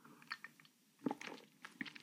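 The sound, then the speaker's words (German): A speaker takes a quick sip of a drink, heard as faint wet mouth sounds: a few soft slurping clicks with a small gulp near the middle and no talk. “Ich muss mal ganz kurz einen Schluck trinken. Ich hoffe, das stört nicht.”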